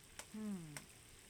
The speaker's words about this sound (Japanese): ベーコンはこのままフライパンに投入して、フライ返しで細かく切ります。